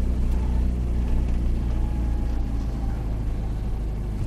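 A car driving gives off a constant low rumble of engine and road noise, even in level from start to finish, with no voices.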